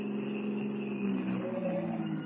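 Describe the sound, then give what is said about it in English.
A car slowing and pulling up at a gas station: a steady, low, drumming engine hum that holds at an even level throughout, with no talk. “Slow down, Spud. Pull up at that gas station and fill the tank.”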